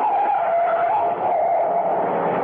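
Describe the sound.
A truck skidding on the road gives a continuous, harsh, hissing screech. The screech stays loud and unbroken for the whole moment, with no voices over it.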